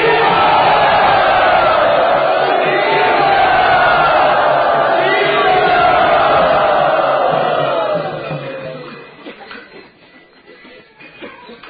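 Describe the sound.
A crowd at a yatra gathering cheers and whoops enthusiastically to welcome a guest, loud and sustained for about eight seconds before dying down to scattered voices.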